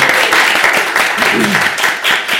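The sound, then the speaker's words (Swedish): A large audience applauds a guest arriving at a Swedish live show. The clapping is brisk and continuous, with voices heard over it. “En applåd också.”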